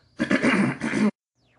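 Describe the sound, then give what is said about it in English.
Throat clearing: one harsh, gravelly rasp under a second long, with a brief break before a final push, then silence. “please excuse my throat.”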